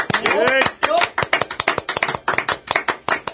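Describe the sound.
A few people applaud in a studio in Kitakyushu. A voice sounds briefly at the start, then rapid, sharp claps follow at an uneven beat, fairly loud and close together.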